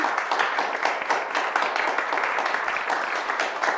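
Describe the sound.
Dense, steady applause from a crowd for a new mayor, the clapping continuing evenly throughout without any talk.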